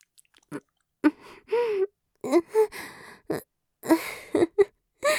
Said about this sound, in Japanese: 一生懸命におっぱいを飲む姿は愛らしいですね。